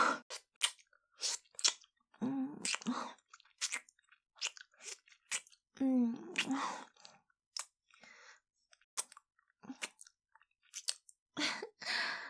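Gum being chewed: many irregular, wet smacking and clicking chews in quick bursts, separated by short silent pauses, with no talking.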